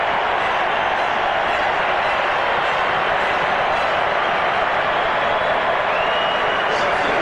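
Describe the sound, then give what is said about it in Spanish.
A stadium crowd in Miami roars as Neymar comes onto the pitch during a Brazil football match. The cheering is a dense, continuous wall of noise that stays loud throughout, with a voice talking over it. “Así lo recibe el público de Miami. Se va Mateus Cunha. Explota el estadio con Neymar en la cancha.”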